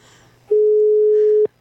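Telephone ringing tone while calling: a single steady, mid-pitched beep of about a second, loud and even, over a faint low background hum.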